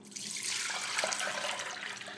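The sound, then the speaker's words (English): Slightly peachy juice, drained from fruit through cotton, is poured out of a bowl in a soft, continuous splashing stream that runs steadily for about two seconds without talk. “What I'm going to do is I'm going to weigh the liquid. So I'm just going to pour it out of the bowl.”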